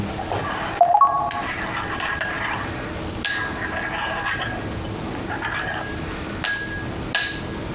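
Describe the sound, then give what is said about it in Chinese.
Water being stirred in a container, heard as a few sharp clinks and scrapes over a steady noisy background. “水倒完了，搅拌一下”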